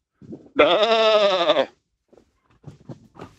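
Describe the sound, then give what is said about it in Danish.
A person's voice imitates a sheep with one loud, wavering bleat lasting about a second, followed by faint scattered sounds. “Vi er enige om, at det var et får. Det er korrekt.”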